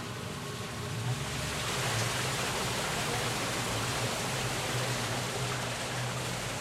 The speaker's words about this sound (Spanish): se siente que está el agua corriendo. Ese tubo es el que se conecta a las tuberías subterráneas, que aunque no los vemos, son las que distribuyen el agua a las casas.